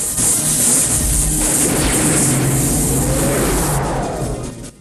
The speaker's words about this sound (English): A second booth crashes out of the sky.